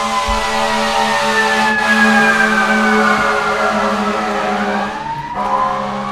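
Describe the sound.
An emergency vehicle siren wails steadily, its pitch gliding slowly downward and sounding continuously throughout with no talking over it.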